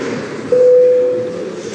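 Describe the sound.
A bell signal calling members to a vote in a parliament, heard as one steady, mid-pitched tone lasting under a second over low background noise.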